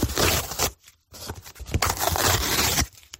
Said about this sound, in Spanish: Este sonido, el de romper el papel de regalo y la caja de cartón, ha sido la banda sonora de esta mañana en tantas y tantas casas, sobre todo en las que hay niños.